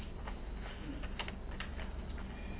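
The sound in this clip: Light clicking from someone writing or typing while speaking in a meeting: many small, quick taps, faint and uneven, with no voices.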